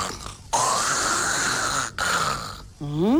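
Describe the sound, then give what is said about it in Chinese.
A storyteller's voice imitates snoring for a sleeping man in a traditional Chinese tale: long, rasping, breathy snores that swell loudly, broken by a brief pause, ending in a short voiced grunt that rises in pitch. “黑虎一愣，心想里边怎么打呼噜声音呢？”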